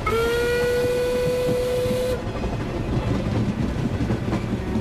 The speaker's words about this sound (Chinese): 列车呀呀，直奔杭州而来，发出沉闷又凝重的铁轨叩击声